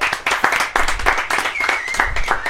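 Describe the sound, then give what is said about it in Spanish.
Audience applause during an interview: a dense, irregular patter of many hands clapping at fairly loud level, sustained throughout. “Un aplauso, por favor. Un aplauso.”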